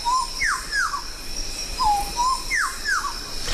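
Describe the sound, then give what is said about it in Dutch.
Bird calls from Papua New Guinea: clear whistled notes, mostly sharply downslurred and often paired, repeated several times over a steady high insect-like hiss. “Een vogel? Ja. Ja? Ja, het is de sejak.”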